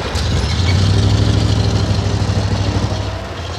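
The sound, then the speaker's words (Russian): A city bus, route 119, drives along Moscow's Berezhkovskaya embankment with a steady, loud, low engine rumble and broad road noise throughout, with no voices. “Автобус едет по Бережковской набережной.”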